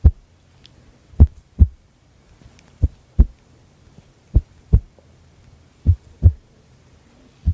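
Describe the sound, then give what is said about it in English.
Paired low thumps of an ASMR trigger imitating a heartbeat, a slightly fast, steady lub-dub rhythm of about four double beats after a single opening thump, with no voices. “but sounds like a heartbeat.”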